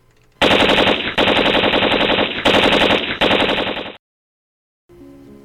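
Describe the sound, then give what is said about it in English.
Machine gun fire in a combat scene: four loud, sustained bursts of rapid shots running almost back to back, then an abrupt stop into silence. “Let me get the machine gun.”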